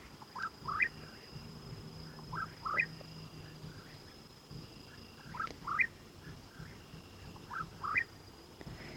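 A bird calling at night, short bright chirping notes given in a few spaced clusters over a faint, steady background hiss.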